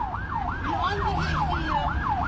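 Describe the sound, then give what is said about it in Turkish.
An ambulance siren wails in fast, regular rising-and-falling sweeps, holding a steady loudness over low road rumble. “Korna, siren ve anonsların ardı arkası kesilmedi.”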